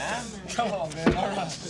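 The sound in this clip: Knife blade tapping on a surface during a knife trick, a few sharp, quick taps scattered among voices talking.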